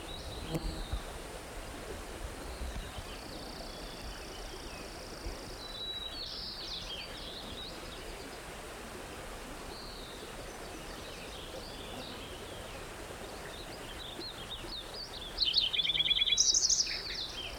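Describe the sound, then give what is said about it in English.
A white-crowned sparrow sings high, thin whistled phrases that stay faint over a steady hiss of outdoor background noise. A clearer, louder trilled phrase comes near the end. “white crown sparrow in there.”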